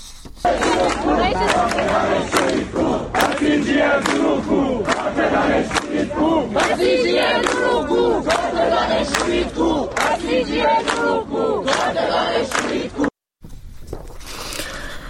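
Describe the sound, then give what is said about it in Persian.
Technical University students chanting protest slogans at a gathering in Tehran: a loud, continuous roar of many voices shouting in rhythmic unison, sustained throughout before a brief cut near the end. “صدای دانشجویان دانشگاه فنی رو بشنویم.”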